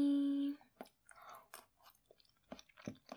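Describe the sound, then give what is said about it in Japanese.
Chewing the last bite of food: soft, faint crunching and wet mouth clicks in an irregular rhythm, after a brief steady tone at the start. “よし、最後の一口。”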